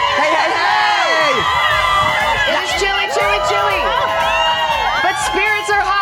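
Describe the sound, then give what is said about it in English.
A happy crowd, including children, cheers and whoops outdoors on a plaza on a chilly morning, a loud, steady mix of shouts and excited voices. “Chilly little morning out here on our plaza. But what a happy crowd we have.”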